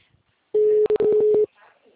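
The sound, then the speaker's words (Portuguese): A mobile phone with a faulty microchip placing a call on its own: a loud, steady electronic tone lasting about a second, broken by a few sharp clicks. “Ó, agora ele está ligando. Eu nem estou conectada, ele está ligando.”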